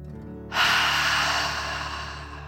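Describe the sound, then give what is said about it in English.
A single deep breath out during a guided breathing exercise, heard as one long, loud, airy exhale that begins suddenly and tapers off slowly. “Let's take three more deep dragon breaths as you continue to float. Deep breath in and out.”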